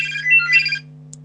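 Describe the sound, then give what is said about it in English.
A mobile phone ringtone plays a short, bright melodic phrase of shifting tones, then stops abruptly. A faint steady hum and one tiny chirp remain. “Oh, sorry, that's my phone. No problem. So I'll just switch that off, sorry.”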